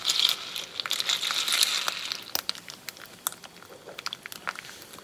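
Breakfast cereal crinkling and crunching: a crisp rustle in the opening seconds, followed by many scattered small, dry crunchy clicks, with no voices.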